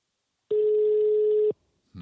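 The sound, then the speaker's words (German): A single telephone ring tone sounds as a call is dialled out: one steady, mid-pitched tone lasting about a second, then silence, and a voice begins to speak. “willst du mal anrufen vielleicht? Ich würde sagen, wir rufen ihn mal an. Anrufen.”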